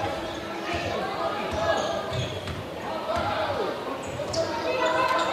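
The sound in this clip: A basketball is dribbled during a game, its rhythmic bounces running over a steady wash of gym noise.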